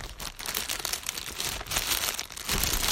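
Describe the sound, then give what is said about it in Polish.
Plastic foil wrapping crinkles as it is peeled off a new pair of closed-back, oval headphones, a continuous crackling rustle with several louder bursts of crumpling. “Są one z taką folię zapakowane. Zaraz ją sobie zdejmiemy.”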